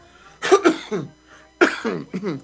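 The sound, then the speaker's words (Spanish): Coughing in two separate bursts, each made of a few harsh, throaty hacks with a short pause between them, heard on its own with no talking. “Pero no me interrumpas con tu tos. ¿La estás haciendo de tos, güey, o qué?”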